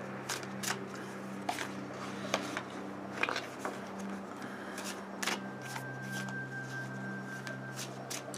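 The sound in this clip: A deck of oracle cards being shuffled, many quick crisp riffling and tapping bursts at an uneven rhythm, fairly soft over a faint steady hum.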